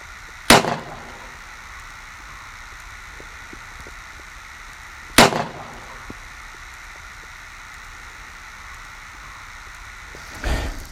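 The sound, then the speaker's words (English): Gunshots from deer hunting in woods, after a buck following a doe: two sharp, loud cracks a few seconds apart over a faint steady hiss, then a softer, duller thump at the very end. “It's about 11:26. I just shot my first deer.”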